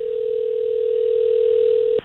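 Telephone ringback tone on an outgoing prank call: one steady, mid-pitched tone holds evenly for about two seconds, then cuts off abruptly, with no voices.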